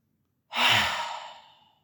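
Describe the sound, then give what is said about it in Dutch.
A single audible breath out during a short calming breathing exercise: a soft, airy exhale that starts sharply and fades away over about a second and a half. “Even kort ademen. Drie keer in en uit.”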